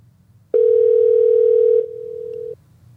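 An outgoing telephone call ringing unanswered: a single loud, steady electronic tone lasting over a second, then dropping to a quieter level before cutting off, with no voices.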